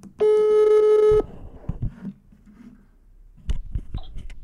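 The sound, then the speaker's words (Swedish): An outgoing telephone call gives one buzzy, steady ring tone lasting about a second, followed by quieter scattered knocks and handling noises. “Ja, så jag har alltså ringt upp Christer Fuglesang, den första svensken i rymden.”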